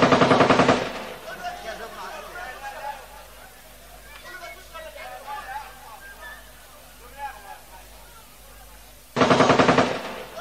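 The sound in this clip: Bursts of automatic gunfire at a gathering of guests: a loud rapid burst at the start and another at the end, with a voice speaking in the quieter stretch between them.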